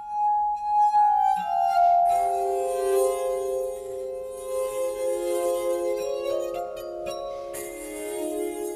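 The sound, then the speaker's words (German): A simple, slow melody on a glass harp, its clear ringing glass tones held and overlapping, with one sustained note after another, moderately loud and alone. “Anfängerfeen wünschen sich von unserer allgemeinen Soundagentur dieses beschaulich schlichte Stück für Glasharfe.”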